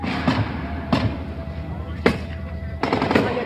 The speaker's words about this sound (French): Ils emploient maintenant la mitraillette du côté des gendarmes mobiles. Du côté des gendarmes mobiles, oui. Non. La mitraillette a été tirée par les manifestants. C'est les militants de l'Arc qui viennent de tirer à la mitraillette à l'instant.